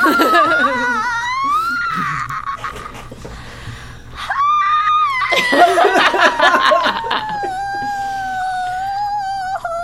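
A person screams loudly in long, strained bursts with a wavering, shifting pitch, easing briefly before a second harsh outburst that trails into a sustained cry.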